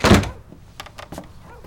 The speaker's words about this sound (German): Und jetzt schnell die Tür zu.